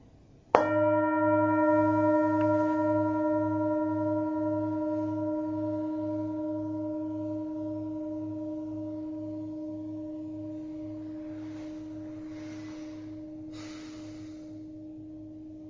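A singing bowl in a Buddhist centre is struck once, then rings with a clear, steady tone and a slow wavering pulse, fading gradually over about fifteen seconds.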